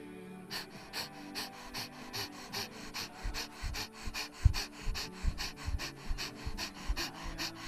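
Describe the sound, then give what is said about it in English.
Rapid fire breathing, with fast, forceful belly breaths repeated many times in a steady, quick rhythm. The breaths are moderately loud and come alone, without talk. “So now 20 fire breaths, fast in the belly, and then a big breath in.”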